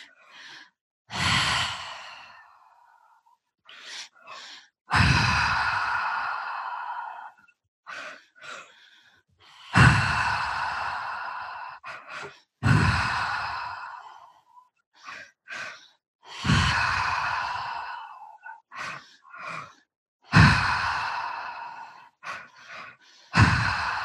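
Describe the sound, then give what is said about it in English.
Strong, deep breathing during a breathwork exercise: loud, drawn-out breaths recur in a steady cycle, with a few shorter, softer breaths between them and silence in the gaps. “Keeping the breath nice and strong.”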